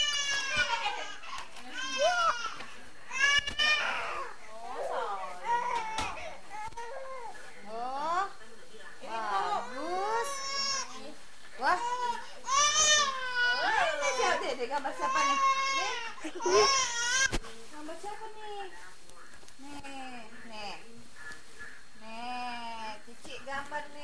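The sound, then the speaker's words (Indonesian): A child cries and sobs in long wavering wails, surrounded by other children chattering and playing throughout. “Ya, ada yang nangis di depan.”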